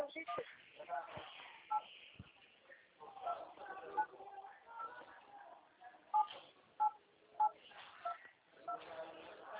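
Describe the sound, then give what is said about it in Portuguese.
Telephone keypad tones as an ID number is typed on a mobile phone during a call: a series of short, high beeps spaced a beat or two apart over a thin phone line, with people talking. “Pediu para digitar o CPF, digito no meu celular.”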